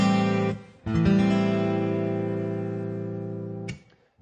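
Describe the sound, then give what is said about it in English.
A guitar plays an open A minor 7 chord, strummed a few times. Each strum rings out with a full, bright tone and decays slowly between strokes, with no talking. “It's an open A minor 7.”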